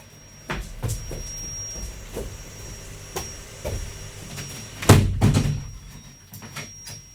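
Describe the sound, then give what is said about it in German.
A window is being closed with a few scattered knocks and rattles, then one heavier thud as it shuts, followed by softer clicks and a faint steady high whine in the background. “Entschuldigt mich bitte, ich muss kurz mal das Fenster schließen.”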